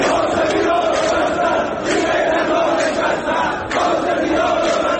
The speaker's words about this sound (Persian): در دومین روز اعتراض ها به نوسان نرخ ارز و بی‌ثباتی در بازار، ویدیوهای منتشر شده در شبکه‌های اجتماعی از گسترده تر شدن اعتراضات و شنیده شدن شعارهای ضد حکومتی